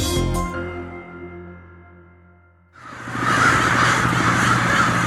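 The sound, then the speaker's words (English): Dense, chaotic cawing from more than 10,000 crows wintering in downtown Nampa, Idaho, surging in abruptly midway and staying loud and continuous to the end. “That's what it sounds like every day in downtown Nampa, Idaho, where more than 10,000 crows have taken up residence for the past three winters.”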